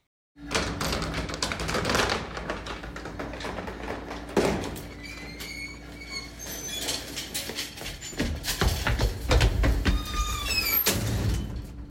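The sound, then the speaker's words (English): Clanking and rattling of an old freight elevator in an apartment building, with a steady low mechanical hum under sharp metallic knocks and bangs and a denser burst of clatter toward the end. “That was the sound of, drumroll please, a freight elevator! In our grandparents' apartment, there was an elevator used for freight.”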